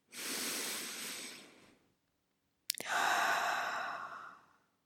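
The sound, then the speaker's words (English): A deep breath taken in a guided breathing moment: two long, soft airy breath sounds separated by a short pause, the second opening with a brief click. “allow yourself to feel it fully. Let's take a deep breath together.”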